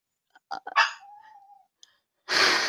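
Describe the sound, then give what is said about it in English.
Dogs barking and whining: a few short yips and a bark, then a thin, sustained whine that trails off, with a faint chirp and a loud noisy burst at the end. “my dogs barking and whining”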